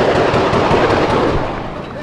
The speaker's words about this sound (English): gunmen entered the building, shooting AK-47s, going floor to floor, killing people